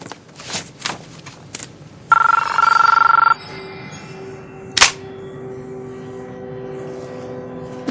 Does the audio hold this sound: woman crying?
no